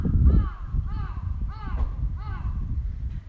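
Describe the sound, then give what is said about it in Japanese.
A crow caws repeatedly in a series of harsh, rasping calls at an uneven rhythm, over a steady low rumble and soft thumping. “カラス鳴いてる。”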